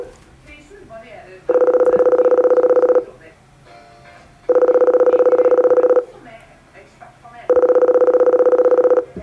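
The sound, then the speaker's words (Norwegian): Call tone from a silver aluminium intercom box after its call button is pressed: three long, steady buzzing tones of about a second and a half each, evenly spaced with quieter gaps between them. “en knapp hvor det står 'call', så nå trykker jeg på den. Så må jeg vente på svar.”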